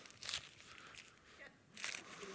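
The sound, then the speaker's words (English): Paper being scrunched up in a classroom: two faint bursts of crinkling and crunching, the first early and the second near the end, with quieter rustling in between. “Got the piece of paper, scrunched it up like this,”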